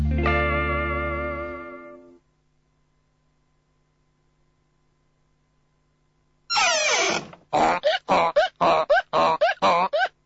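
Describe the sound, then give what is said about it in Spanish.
A donkey bray sound effect for a donkey character opens with a long, harmonic, honking tone, then near silence. A rough burst follows, then several choppy, distorted braying pulses in quick succession. “Otra vez animales en la sala, no, ¿eh? No, es el burrito Rafael.”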